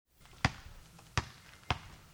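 Three bounces of a basketball on a hard surface while someone shoots baskets, each a sharp thump spaced well apart with a quiet gap between, fairly faint.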